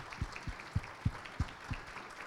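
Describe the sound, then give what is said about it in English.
Applause from a church audience welcoming a guest: brief, quiet clapping with a steady, fairly sparse rhythm of separate claps. “So Tammy, if you'll just come. This is Tammy Brown from Thailand. Will you give her a warm welcome?”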